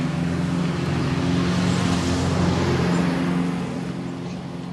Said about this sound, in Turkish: tek başına kırmızı eski model arabasında. asfalt kıvrımlı yolda virajı dönüp yokuş aşağı geçip gitti.